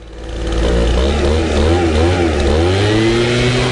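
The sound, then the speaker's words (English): A neighbour's leaf blower running early on a Saturday morning: a loud, steady engine drone that swells in over the first half second, its pitch wavering up and down as the throttle shifts. “There's no way! There's no way your neighbor is out there leaf blowing.”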